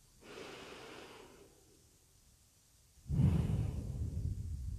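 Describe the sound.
Breathing during a guided breathing exercise: a soft, airy breath, then a quiet pause, followed by a louder, lower, rushing exhale that carries to the end, with no talk.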